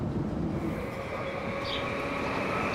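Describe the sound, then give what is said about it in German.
Steady rumble of a regional express train running along the left bank of the Rhine between Bingen and Koblenz. The broad, even roar continues unbroken throughout, with no voices. “Wieder auf der linken Rheinseite steigen wir in Bingen in den Zug nach Koblenz. Der Regionalexpress hält im Gegensatz zum ICE öfter.”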